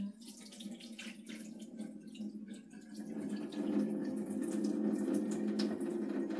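Tap water runs steadily while small grains are washed, splashing and trickling with faint drips. The rush grows fuller and louder partway through and holds steady to the end.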